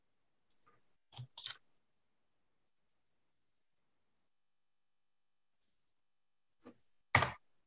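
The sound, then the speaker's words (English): Computer keyboard keystrokes as a single letter is typed into a search box: a few crisp, quiet clicks in two small clusters separated by a long stretch of silence. “I guess I should just search. It's faster to type the letter S here.”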